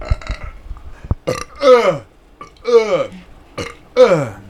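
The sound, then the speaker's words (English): Loud burps into a microphone: a few drawn-out, croaking belches with rough, gravelly tone, each swelling and then trailing off, separated by short pauses. “I say that after I fucking burp like that in the microphone.”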